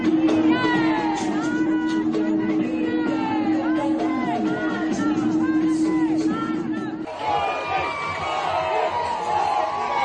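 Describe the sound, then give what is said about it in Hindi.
A large crowd lining both sides of the road chants patriotic slogans during a roadshow in Vadodara: many voices shouting together in loud, overlapping, rising and falling calls that continue the whole time. “वे इस समय वडोदरा में विशाल road show कर रहे हैं। सड़क के दोनों ओर बड़ी संख्या में लोग एकत्र हुए हैं और भारत माता की जय के नारे लगा रहे हैं।”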